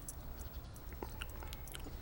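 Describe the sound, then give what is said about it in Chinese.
Someone chewing meat to test it for poison: faint, moist mouth sounds with a few soft crunching bites over a low background hiss. “看什么看？不是要跟你抢肉吃，替你试试有没有毒。”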